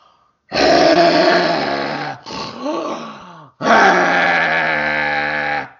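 A man snores loudly at night, making a few long, harsh, rasping breaths with a grunting, throaty roughness. The sound is very loud and alone, with one brief break in the middle.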